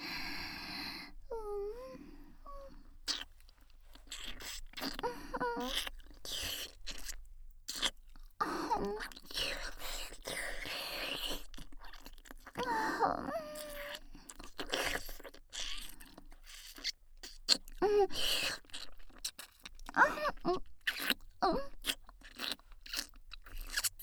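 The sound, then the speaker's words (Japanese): Wet kissing sounds: many soft lip smacks and slurps in an irregular run, mixed with breathy sighs and brief soft vocal murmurs. “では改めましてキスをさせていただきますわね。”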